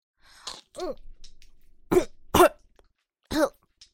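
A woman coughs after choking on a large piece of banana. Several harsh, voiced coughs come in separate bursts with short pauses between them, then a tiny final one, and no one speaks.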